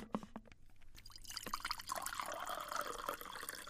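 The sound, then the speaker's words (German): Coffee pours from a thermos jug in a steady, faint liquid stream with light splashing, continuous and alone throughout. “Er goss sich aus der Warmhaltekanne Kaffee nach und bot dies auch stumm Camilla, seiner Frau, an.”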